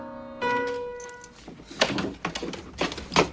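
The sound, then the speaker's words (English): A door opens while piano is being played: sustained piano notes ring and fade, then a series of muffled thuds and rattling knocks follows in uneven bursts. “Behind him, the door opens.”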